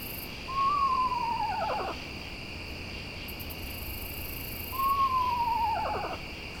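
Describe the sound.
Two owl familial calls, each a clear, whistle-like note that glides slightly downward over about a second. A steady chirring of crickets runs underneath throughout.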